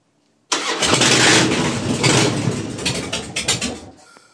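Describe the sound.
A cold engine starts with a sudden loud roar and is revved with the throttle. The full-bodied mechanical noise holds steady, then surges and pulses through a few quick revs before easing slightly.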